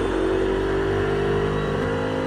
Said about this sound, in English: we're fully under control and braking again. On the throttle again.